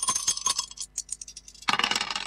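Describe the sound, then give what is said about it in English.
Dice tossed and rolling: a quick run of light, bright clicks and rattles, a brief lull, then a louder burst of rattling at the end, with no voices. “Let's toss the dice and see what we get.”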